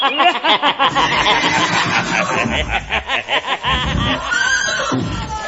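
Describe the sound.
A horse neighs in a loud, shaky whinny of rapid pulsing bursts that trails off into rougher, breathy snorts.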